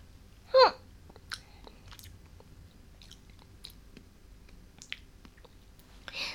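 Chewing on crispy roasted chicken breast coated in sauce: faint, sparse crunches and moist clicks, with one louder bite near the start and then scattered softer chews, no talking.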